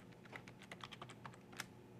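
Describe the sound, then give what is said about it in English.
A computer keyboard is typed on as a web address is entered in a browser while running a Visual Studio project. Many quick, faint clicking keystrokes patter steadily and unevenly. “So now what if I type in home index?”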